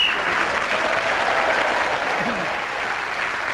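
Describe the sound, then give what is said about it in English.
Sustained audience applause at the close of a show, a dense, even wash of clapping that holds steady and eases slightly toward the end. “So Clement Freud brought that round to a close and has brought the show to a close with a resounding reaction from the audience with his comments.”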